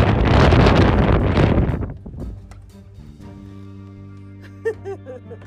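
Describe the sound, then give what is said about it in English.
Cold wind blowing outdoors, a loud rushing gust buffeting the microphone for about two seconds before dying down to a faint background. “Okay, it felt great while it was nice and calm. And then the wind picked up, and oh my God, it is so cold out there.”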